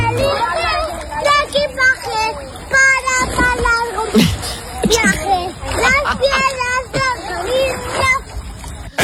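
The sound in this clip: A splash from someone doing a cannonball jump into a swimming pool, heard in the background behind a three-year-old boy singing while swimming, with other children's voices and water sloshing throughout.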